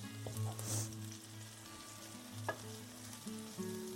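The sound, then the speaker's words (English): An onion browns in olive oil in a pan, giving a faint, steady sizzle with a few soft knocks scattered through it. “My onion is still browning.”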